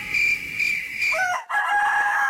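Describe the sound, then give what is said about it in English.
A rooster crows among fowl, the call standing out over a steady, bright, droning background that briefly dips near the middle; no one speaks. “One chicken, two chickens. One chicken.”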